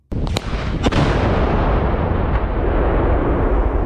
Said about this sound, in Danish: Sådan her lød det nemlig forleden, da en ud af to bomber fra 2. verdenskrig blev sprængt på Kær Halø uden for Sønderborg.